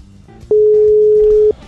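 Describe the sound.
Telephone tone while placing a live on-air call: a single steady mid-pitched tone holding for about a second, then cutting off, over a faint low background.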